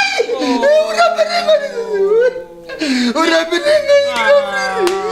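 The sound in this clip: A man crying, with tremulous, voiced whimpering and wailing that rises and falls in pitch. The loud sobbing runs almost unbroken, dipping briefly midway before resuming.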